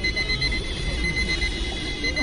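Alarm clocks ringing at a street protest, a steady, high, shrill ringing that continues unbroken over a low rumble of background noise.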